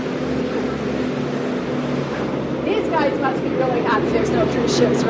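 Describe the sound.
Trucks hauling shipping containers in downtown Juneau give off a continuous low engine rumble and road noise that stays steady throughout, while a person talks over it.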